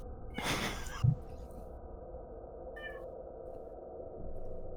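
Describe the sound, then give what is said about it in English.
A tavern cat meows outside, a few faint, brief calls separated by pauses over a low, quiet hum. “There's the tavern cat. He's talking to his friends outside.”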